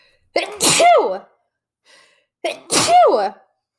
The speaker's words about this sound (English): excuse me. I didn't ask her how to sneeze.